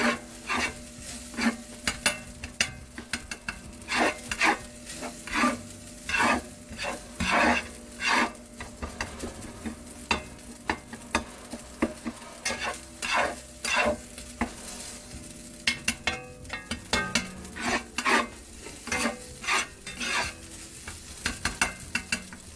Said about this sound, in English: I'm actually cooking my dinner. For me and my family.